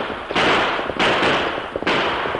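Radio-drama gunshot effects during a western chase scene: three loud, sustained bursts of crackling noise, each lasting over half a second, with short dips between them and no voices.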